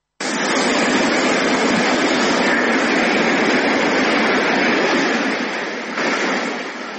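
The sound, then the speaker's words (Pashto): Continuous roar of sea waves breaking on an empty beach of an Italian coastal town, a broad, steady wash of surf that holds level before easing slightly and swelling again near the end. “خو اوس د دغه ښار ساحلونه له خلکو تشتي او د سمندر څپې خاموشي ماتوي”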